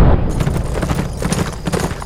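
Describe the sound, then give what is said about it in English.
Hooves of six horses ridden hard at a gallop make a dense, loud, continuous drumming of overlapping beats with no pauses. “Smoke and his 5 friends rode hard toward Murdoch's ranch, leaning over their saddle horns”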